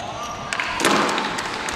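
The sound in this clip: A sepak takraw ball striking the ground during a match, heard as two short impacts close together near the middle, over a constant background hiss.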